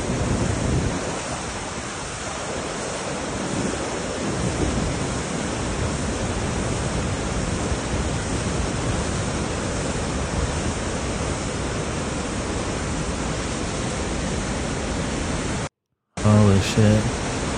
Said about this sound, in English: They had some flooding going down up there. Look at this shit. That's some water right there, son.